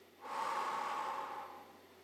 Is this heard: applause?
no